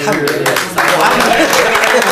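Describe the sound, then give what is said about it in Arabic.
Studio audience applause rings out as continuous brisk clapping beneath a speaking voice. “مبروك التصفيق مبروك الحمد لله”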